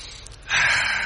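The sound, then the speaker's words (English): A caller on a phone line takes a deep breath: a loud, rushing inhale begins about halfway through and holds steady as a breathy hiss to the end, with no talking. “Take a breath. Take a deep breath.”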